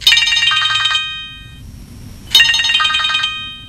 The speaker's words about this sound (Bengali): না না না, ফোন ধরবে না।